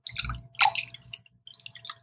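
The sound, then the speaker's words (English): A mimosa is poured into a glass, heard as faint, wet splashing and gurgling in a few short bursts with brief gaps between them. “you hear that pouring of the mimosa”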